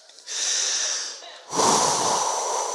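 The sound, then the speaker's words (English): A deep breath taken slowly, heard as two long airy rushes of air, the second fuller and louder than the first, alone with no talk. “So, maybe just take a minute. Let's just, like, take a breath together.”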